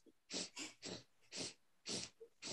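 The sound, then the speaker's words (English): Breath of fire yoga breathing, pumping the belly in rapid, forceful exhalations. Six sharp hissing bursts come in a quick, slightly uneven rhythm, with brief quiet gaps between them. “So this breath, we are going to take our peace fingers here and we're going to put them right at the diaphragm and we're going to pull the belly in. So it's the breath of fire is sort of a pumping of the belly, like a...”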